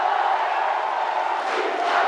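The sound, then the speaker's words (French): A crowd cheers in a town hall room, a loud, continuous roar of shouting and acclaim that holds steady without a break. “La foule l'acclamait. Morpho. Dans la salle de l'hôtel de ville.”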